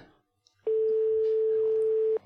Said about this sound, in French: Ok, ça sonne. Ah oui, ça sonne.